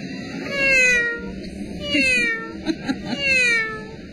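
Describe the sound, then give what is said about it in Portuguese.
A human voice imitates a cat meowing while telling animals to children: three drawn-out, tonal meows with wavering, gliding pitch, separated by short pauses, with a couple of soft clicks between the later calls. “E o gatinho? Como será que o gatinho fez?”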